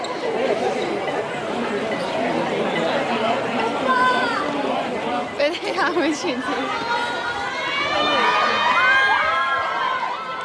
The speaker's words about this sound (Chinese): 现场粉丝即时陷入疯狂状态，大声尖叫。